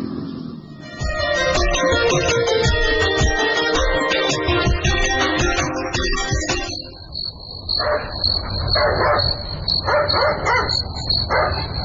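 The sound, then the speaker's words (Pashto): A dog barks at midnight while crickets chirp steadily. A dense, loud stretch gives way to several sharp, separate barks in the second half, and a thin, high insect trill continues underneath. “نه پوهېږم چې دا سپی ولې غاپي. خامخا څه خبره شته؟”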